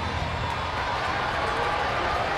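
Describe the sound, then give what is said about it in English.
Steady crowd noise fills a ballpark where a rowdy baseball crowd of about 16,200 gathers after a weather delay, a dense continuous wash with no distinct cheers. “Pretty rowdy crowd, 16,200 tonight. Good energy, despite being subdued a little bit by a 56-minute weather delay.”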